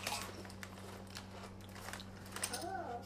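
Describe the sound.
Crunching as someone bites into and chews a deep-fried potato crisp: faint, scattered crackles over a steady low hum.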